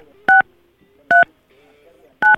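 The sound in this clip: Telephone keypad tones as a number is dialed on a phone: three short, evenly spaced two-tone beeps, loud and clean, over a faint low background murmur.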